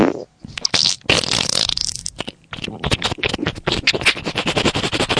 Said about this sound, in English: I got a fart again.